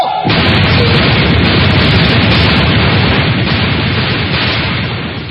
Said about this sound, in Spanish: Señores, ya se están impartiendo órdenes para el fusilamiento. ¡Escuchemos! ¡Reparen! ¡Apunte! ¡Fuego!